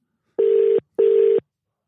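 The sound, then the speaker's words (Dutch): Two short telephone beeps as a number is dialed to place a call, each a steady, even tone of equal length separated by a brief gap, with no voices. “Oké, we gaan hem bellen.”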